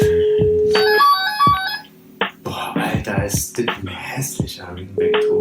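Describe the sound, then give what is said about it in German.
Telephone tones on an outgoing call: a steady electronic tone followed by a quick run of short beeps in the first two seconds, then voices talking loudly over the line. “dann werden wir mal anrufen, den Gallienvogel”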